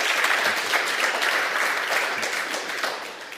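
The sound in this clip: An audience applauds to welcome a guest speaker, an author, with dense, steady clapping that eases off gradually toward the end.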